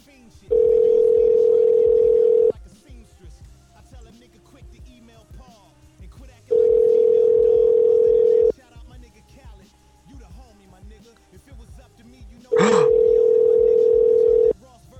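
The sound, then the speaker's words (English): After a call cuts off, a telephone sounds three long, steady beeps of about two seconds each. They are spaced roughly four seconds apart, with voices talking in the gaps and over them. “Oh, I'm sorry, our phone cut up.”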